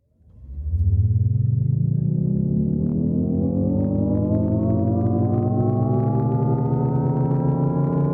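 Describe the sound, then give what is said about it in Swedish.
Synthetic drive sound of a Jaguar I-Pace electric car accelerating: a loud, siren-like harmonic hum swells in and climbs steadily in pitch, then holds fairly level as a smooth, continuous tone. “Jaguars elektriska I-Pace låter så här när den först accelererar och sen saktar ner.”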